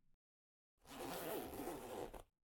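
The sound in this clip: A trouser zipper pulled down in one smooth continuous rasp lasting about a second and a half, quiet and alone, after a brief soft sound.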